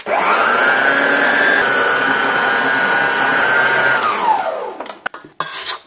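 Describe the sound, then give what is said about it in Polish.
An electric mixer whirs as it beats gingerbread dough while butter and gingerbread spice are poured in. The loud, high motor whine holds steady, winds down in pitch near the end, and is followed by a few brief knocks. “W trakcie ubijania wszystkich składników będę wlewać powolutku masło. i przyprawę do piernika. Czyli tak, wlewamy trochę i włączam mikser.”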